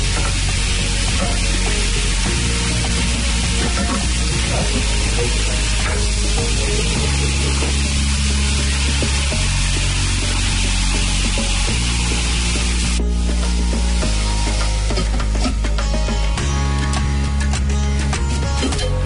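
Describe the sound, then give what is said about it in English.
Sliced gourd cooking in a pan over low to medium heat with no added water gives off a loud, steady sizzle that continues without a break. “cook on low to medium heat for 6 to 8 minutes. Don't add water, the gourd leaves its own water.”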